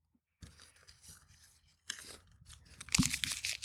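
Folded paper slips with letters on them rustle and crinkle as they are shuffled and mixed, in crackly bursts with a brief pause in the middle and the loudest handling toward the end.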